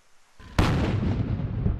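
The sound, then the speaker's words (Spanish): A cannon blast from a 90-gun salute in London for the Queen's 90th birthday: a sudden loud boom rises out of faint low noise and then holds as a heavy, sustained rumbling roar to the end. “En Londres, un saludo a 90 cañonazos, una banda militar y miles de ciudadanos en celebración congratularon a la reina Isabel”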